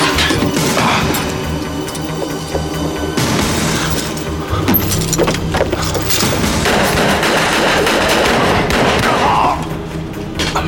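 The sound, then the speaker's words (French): Gunfire rattles through a film shootout scene in which attackers storm a house. Many sharp shots, booms and crashes pile up in a loud, dense, continuous barrage. “Ouais, il y a du monde qui vient attaquer la maison de Hulk Hogan pendant que lui, il est en route. Ça nous fait une semi-scène d'action de fusillade.”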